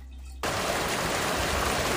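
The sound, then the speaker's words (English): Water running in a shower, heard as a dense, even hiss. It starts abruptly after a brief quiet moment, then pours steadily and fairly loudly without a break. “This is a shower.”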